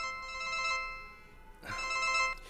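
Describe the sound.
A telephone rings with a steady electronic ringtone, sounding in two ringing stretches separated by a short dip, fairly soft and with no one talking.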